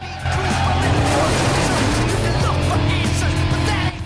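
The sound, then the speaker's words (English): Engine roar of a Chevy pushed to about 100 mph in a car chase on a dusty road, a loud, dense and steady drone that holds from start to end. “The speedometer on the Chevy's dashboard reached 100 mph. Sean shifts up a gear.”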